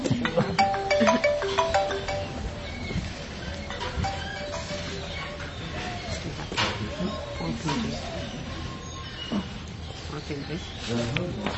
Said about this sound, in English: Yeah, that's the what do you call it? That's the phone call.